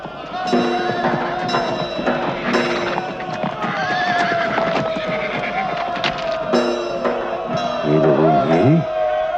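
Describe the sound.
Horses whinny repeatedly while ridden, with shrill harmonic neighs over a steady patter of clip-clopping hooves and a wavering, quivering whinny near the end.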